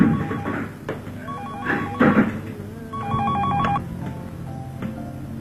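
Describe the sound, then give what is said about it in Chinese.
A telephone rings with repeated electronic ringing tones in a short rhythmic pattern, loud and steady through the whole stretch. “便一边和他上网聊天，一边打了电话过去”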